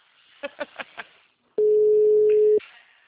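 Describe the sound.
Telephone tones sound while a caller waits for someone to answer: four short, evenly spaced beeps, then one long steady tone lasting about a second, followed by quiet.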